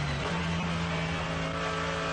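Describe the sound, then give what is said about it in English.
A Mercedes AMG GT3 race car, a package evolved in 2020, roars around a circuit with a loud, continuous engine note that holds at a steady pitch from start to end, with no voices. “The venerable Mercedes AMG GT3, a package that was evolved in 2020, but a package that is so well known to the circuit.”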